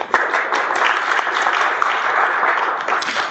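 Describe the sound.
Audience applause welcoming a speaker to the stage: dense, steady clapping from many hands that holds at an even level throughout.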